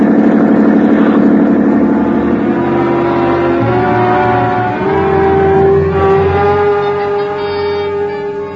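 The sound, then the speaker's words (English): A police boat's engine runs at speed while chasing a schooner: a loud, steady motor drone whose tone shifts partway through, with no talk. “a schooner with auxiliary power is matched against a police boat”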